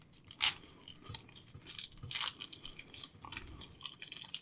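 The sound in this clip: Crunching of a matcha Kit Kat: a few crisp bites followed by soft, irregular chewing, fairly faint.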